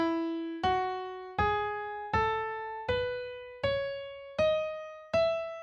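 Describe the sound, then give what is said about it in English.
An E major scale is played upward as eight evenly spaced notes, each struck cleanly and left to ring and decay before the next, rising step by step through one octave. “If you take an E major scale, which sounds like this,”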